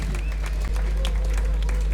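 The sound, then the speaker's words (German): Audience applause at a live music evening: many overlapping claps form a dense, crackling burst that stays loud and steady for about two seconds, over a constant low hum. “herzlichen Applaus für das”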